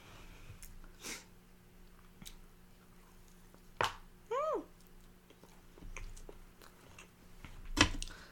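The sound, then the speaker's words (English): Someone bites into a donut and chews it, giving quiet, moist mouth sounds. A few sharper bites stand out over soft, ongoing chewing. “Let me take a couple more bites of my donuts.”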